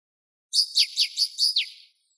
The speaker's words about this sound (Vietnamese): Ngũ sắc tước kêu to, chải chuốt hết sợi lông chim xinh đẹp của mình, liền không nhanh không chậm vỗ cánh rời đi.